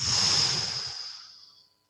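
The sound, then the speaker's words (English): A single forceful breath out, pushed hard through the mouth as a long, loud, airy rush that holds steady at first and then thins out and fades over nearly two seconds. “take a breath out or push my breath out”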